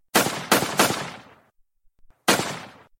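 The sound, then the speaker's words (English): Gunshots ring out in sharp, loud bursts with short decaying tails: three shots in quick succession, a pause with a few faint clicks, then a fourth shot. No voices are heard. “You shot me! Yeah! I guess that means I win, said the guy who just got shot.”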